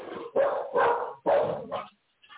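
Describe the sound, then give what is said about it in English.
A guard dog barks in a run of loud, sharp bursts with short gaps between them. The barking stops briefly and then ends with a faint yip. “Yeah, guard dog, baby.”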